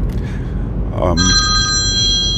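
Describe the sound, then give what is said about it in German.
A telephone rings with a steady, bright electronic tone that starts midway and holds to the end. A brief voice and low background noise come just before it. “Jetzt muss ich mal kurz ans Telefon.”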